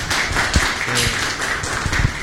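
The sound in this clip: Applause from an audience welcoming a speaker at a talk and debate on the Church and dictatorship, a dense, steady patter of clapping with a few heavier thumps, lasting about two seconds.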